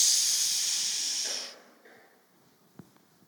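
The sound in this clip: A voice imitates a leaking tyre with a long shushing hiss, as when hushing noisy children in church. The steady, loud, breathy hiss lasts about a second and a half, then cuts off, leaving faint small noises.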